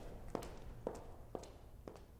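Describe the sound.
A woman walks with clean, articulated percussive steps, four crisp, evenly spaced clicks sounding faintly and alone.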